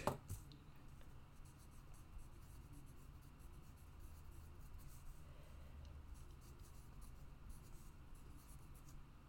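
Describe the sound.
A pencil scratches faintly and continuously on paper while cantrips are filled in on a Dungeons & Dragons character sheet, a soft, steady rasp with small irregular strokes and no talk over it.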